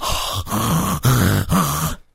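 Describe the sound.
A man's voice imitates the heavy, labored breathing of someone slumped in a recliner: four loud, rasping breaths in a slow, even rhythm, followed by silence.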